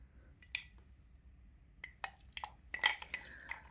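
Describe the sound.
Ice cubes clinking, with a few faint, sharp clinks spread apart and then a quicker cluster of brighter taps near the end. No one speaks.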